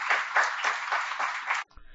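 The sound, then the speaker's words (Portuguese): Clapping at a city council session honouring the ancestors, a fairly faint, dense patter that pulses in quick waves and then stops abruptly before the end. “Então, eu peço uma salva de palmas aos nossos antepassados.”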